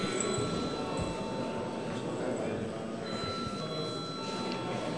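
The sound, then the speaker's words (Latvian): A bell rings in a parliament chamber just before a vote. It is a steady, sustained ringing that holds at an even level through the whole clip. “Paldies, lūdzu zvanu.”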